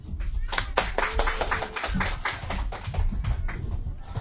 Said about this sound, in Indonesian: Tepuk tangannya dong.